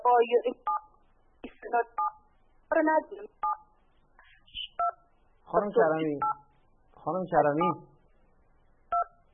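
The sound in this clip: Telephone keypad tones sound as a caller presses phone buttons during a call, several short electronic beeps scattered between bursts of talk.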